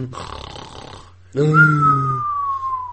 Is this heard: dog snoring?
yes